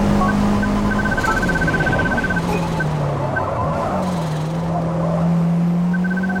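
A racing car engine in the Forza Motorsport video game, throttle lifted through a right hairpin. A loud, continuous engine drone dips in pitch and then levels off, with thin high tones above it.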